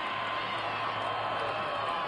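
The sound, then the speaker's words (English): A crowd cheers and applauds in a continuous, dense, loud roar of clapping and voices with no pauses, a steady wash of noise throughout. “Are they applauding socialism there?”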